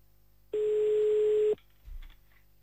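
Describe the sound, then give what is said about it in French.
A single telephone ringing tone, a steady mid-pitched beep lasting about a second, sounds as a call is placed to La Louvière, followed by a brief low thump. “Allez, c'est parti. On appelle à la Louvière pour le messager de Dieu.”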